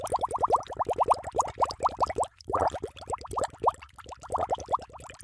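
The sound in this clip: A submarine surfacing sound effect of rapid bubbling, with many quick, upward-bending plops in a steady burbling stream, fairly faint and continuing throughout.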